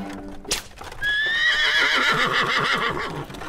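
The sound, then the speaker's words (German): A mare pulling a cart whinnies loudly in a long, shrill, wavering call, and trotting hooves clip-clop beneath it, preceded by a brief sharp crack. “Er peitschte die Stute, die nach einem Satz zur Seite wieder in flotten Trab fiel.”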